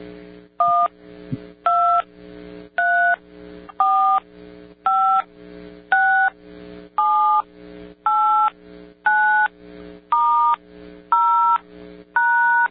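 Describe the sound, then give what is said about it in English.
Twelve touch-tone beeps come from pressing keys on a type-72 telephone dial pad, each a clear steady tone of about half a second, evenly spaced and varying slightly in pitch from key to key. “But this is the 72 type dial pad, which is not the one that has buttons that push it all the way. It just be a little click.”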